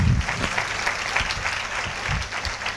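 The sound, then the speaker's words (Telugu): A church audience claps in praise, a steady, continuous patter of many hands at an even, moderate loudness with no pauses. “స్తోత్రం చెప్తూ చప్పట్లు కొట్టండి స్తోత్రాలు చెప్తూ చప్పట్లు కొట్టండి”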